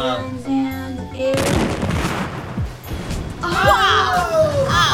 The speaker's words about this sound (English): Oh no! The tracking droid just blasted Moroz!